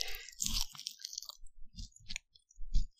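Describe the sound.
Someone chews a crunchy pea-based veggie snack, with a few sharp crunching bites separated by short gaps. The bites are fairly quiet and there are no voices.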